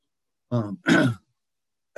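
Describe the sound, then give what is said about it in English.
A person struggling to clear their throat gives a two-part raspy, voiced clearing, a brief low grunt followed by a harsher scrape, then silence until another sound starts right at the end. “excuse me, I'm having a hard time clearing my throat, and it's distracting.”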